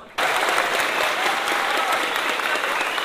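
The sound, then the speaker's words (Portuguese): Sustained applause from an audience at a neighborhood tribute event in São Paulo, bursting in abruptly after a brief silence and holding dense, steady and loud to the end. “Edu Alves, uma salva de palmas”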